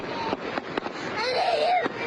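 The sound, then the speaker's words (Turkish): Fireworks go off at a wedding in strong wind: a few sharp, cracking bangs spread across the moment, with a wavering whistling tone trailing between the later blasts. “Şiddetli rüzgara aldırış etmeden düğünde havai fişek atıldı.”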